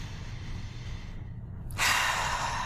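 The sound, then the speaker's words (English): Heavy breathing into a phone: a soft, muffled stretch gives way to a loud, rushing breathy exhale in the last second. “Breathe into the phone. Deeper.”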